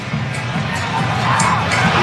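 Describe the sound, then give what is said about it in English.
Paraguayan football fans cheer in the stands at a World Cup match, a steady, dense crowd roar that holds at an even level throughout. “Yeah, the Paraguayan fans cheering Mbappe.”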